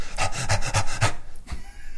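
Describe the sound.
A voice imitates panting, like a mother jogging behind a pram: quick, rhythmic breathy huffs in an even beat, then a brief pause and a softer breath.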